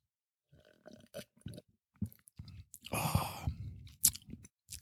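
Chewing while eating: many short, irregular crunchy bites and mouth sounds separated by brief pauses, with a longer, denser burst of munching in the middle, all fairly faint and without talk.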